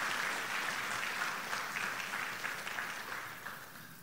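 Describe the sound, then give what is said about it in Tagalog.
A church audience applauds during a service: a fairly faint, even wash of many hands clapping that holds steady and eases off slightly toward the end. “Palakpakan natin ang ating Panginoong Jesus.”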